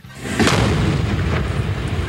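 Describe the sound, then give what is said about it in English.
A 40-pound pipe bomb set off by a wind-up clock timer explodes in a crowded city park during an outdoor concert, a loud, sustained, rumbling roar that fills the whole clip. “It was a huge pipe bomb, unprecedented, 40 pounds, detonated by a wind-up clock and built to kill hundreds.”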